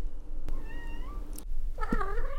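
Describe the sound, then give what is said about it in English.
A kitten meows twice at home, each call a clear, wavering mew with the second slightly longer, separated by a short pause, with a couple of faint clicks in the background. “Tulip, or Tutu, is her kitten.”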